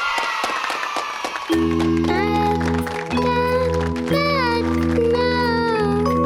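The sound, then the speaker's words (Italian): Applause welcoming a performer on a radio show: clapping alone at first, then a music track with deep, sustained bass tones enters and the clapping continues beneath it. “Accogliamo con un bel applauso Dini.”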